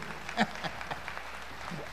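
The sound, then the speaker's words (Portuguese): An audience applauds during a church service: a soft, steady wash of many hands clapping, with a voice faintly over it. “aplauda aí a Vera Lúcia em nome do Senhor Jesus”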